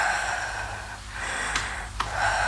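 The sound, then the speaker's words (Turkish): Deep inhaling during a medical check, an airy breathy hiss that swells and fades in a few waves, with a couple of small clicks. It is fairly quiet and no talk is heard. “Nefes alın.”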